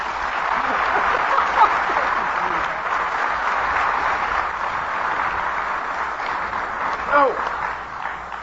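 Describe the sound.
An audience applauding to welcome a speaker at a meeting: sustained, dense clapping that stays fairly even throughout, with some voices mixed in.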